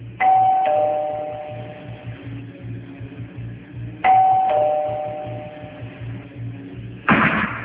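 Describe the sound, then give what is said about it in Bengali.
A doorbell rings twice with a clear ding-dong chime, the two rings evenly spaced and each fading out slowly. “এমন সময় calling বেলের আওয়াজে চমকে উঠল সে।”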